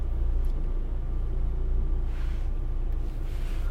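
Steady low engine rumble from a car being driven, holding an even, fairly loud level throughout with no voices and no clear change as it runs.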